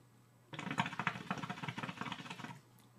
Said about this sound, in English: Let's spin again. Okay, we're spinning the wheel again.